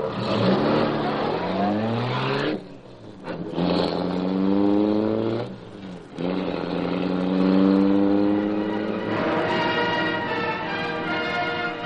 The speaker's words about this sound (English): Britt Reed pressed a button. The great car roared into life. Section of the wall in front raised automatically, then closed as the gleaming Black Beauty sped into the night.